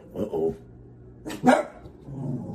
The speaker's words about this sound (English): I guess that's my time, because the dogs are going to start going nuts, because the landscaping people, they're out there, man.